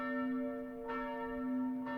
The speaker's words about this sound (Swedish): Har ju kyrkklockor, och där valde prästen att sätta igång kyrkklockorna.